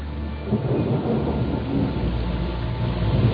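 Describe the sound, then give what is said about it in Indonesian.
Rain pours down in a dense, even hiss with a low rumbling undertone, loud and constant throughout with no pause. “mengamati air hujan yang perlahan mulai mereda.”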